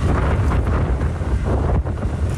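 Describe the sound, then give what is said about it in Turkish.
Strong storm wind blowing at about 80 km/h in Tekirdağ, a loud, continuous roar buffeting the microphone with a deep rumble, steady throughout with small surges and no voices. “Tekirdağ'da rüzgarın hızı saatte 80 kilometreye çıktı.”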